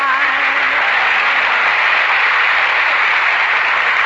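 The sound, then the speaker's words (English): Audience applause in an old radio comedy show, a loud, unbroken wash of many hands clapping that holds at an even level throughout. “Say, did you hear that applause?”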